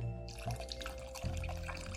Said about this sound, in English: So I'm just gonna get some cold water and add it to the top.